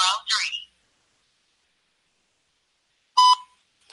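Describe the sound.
Telephone tones while a voicemail is dropped: a couple of short electronic chirps at the start, a long silence, then one brief, sharp beep.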